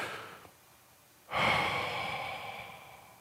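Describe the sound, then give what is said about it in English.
A deep breath taken during a guided breathing exercise: a faint airy breath trails away, and after a pause a strong, long whooshing breath rises sharply and slowly fades. The breathing is quiet overall, with no talk. “take a breath with me and inhale in and a breath out on the count of three”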